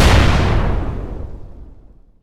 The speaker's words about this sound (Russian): Удерживая коленями тубус, я снял предохранитель и тут же выстрелил.